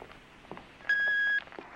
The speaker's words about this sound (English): Back at Dr. Elliot's office, he's listening to voicemails, and he skips a few before he gets to one from Bobby